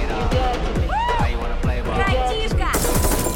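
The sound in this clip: Rapid gunfire bursts from a jeep target a black panther during a street chase. The shots repeat at a quick, regular pace, each with a sharply falling pitch, and the sound stays loud and dense throughout.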